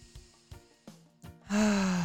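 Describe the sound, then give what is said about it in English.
A person does a lion's breath exercise, ending in a forceful, open-mouthed exhale. A few short, sharp breath sounds come first, then one loud, sustained, breathy and partly voiced release. “I talk about lion's breath a lot, and that's where you're taking your deep breath in. And then as you exhale with your mouth open, it's like you're releasing the sound that comes out with it.”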